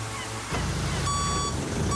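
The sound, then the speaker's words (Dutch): Reversing beeps as a car parks: two high, steady electronic beeps, the first about half a second long and the second starting shortly after, sounding over a dense, loud background. “Adrie heeft net zijn auto geparkeerd.”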